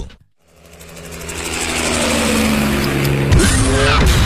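Loud engine roar of a car with a V8 all-aluminium petrol engine and all-wheel drive, swelling up from near silence into a sustained, dense growl that stays strong to the end.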